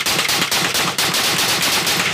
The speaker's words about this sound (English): And what you just heard was 15 rounds, back fast.